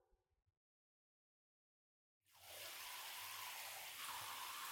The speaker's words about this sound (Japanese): それじゃ、頭にお湯かけますよ。